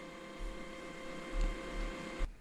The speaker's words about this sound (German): Im Hintergrund hörst du meinen Drucker. Ich weiß nicht genau, was er da jetzt arbeiten muss. Aber er ist sehr, sehr vehement dabei zu arbeiten.